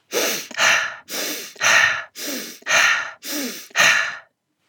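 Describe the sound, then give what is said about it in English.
Rapid breathing, in through the nose and out through the mouth with no pause between inhale and exhale, as in breathwork practice. Eight breath sounds follow in a steady, even rhythm, each a soft airy rush, with no talk. “You will breathe in through your nose and out through your mouth with no pause in between the inhale and exhale for about 1 minute.”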